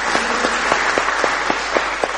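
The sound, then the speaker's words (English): A group applauds with dense, steady clapping for a finished jigsaw puzzle. Many overlapping claps keep an even, continuous level throughout. “Shall we give them a round of applause?”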